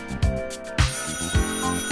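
A telephone bell rings with a bright, sustained metallic tone. A few dull low thumps punctuate the ringing at fairly regular intervals. No voices are heard.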